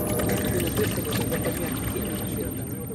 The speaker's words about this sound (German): Aus einem Kanister schüttet sie Wasser in einen Teekessel, macht mit ein paar Ästen Feuer.